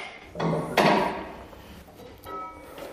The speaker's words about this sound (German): Der Trainer öffnet das große Fenster, damit ein bisschen Sauerstoff hereinkommt.